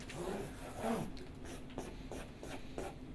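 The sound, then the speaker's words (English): A diagram of a ten-element array is drawn by hand, giving faint, scratchy writing strokes in several short bursts over a low, steady background hum. “So I can draw it. Let's say we have this 10 element array.”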